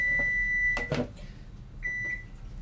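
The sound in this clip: A microwave oven beeps when the eggs cooking in it are done: a long, high, steady electronic tone, then a shorter second beep after a pause, over a low background hum.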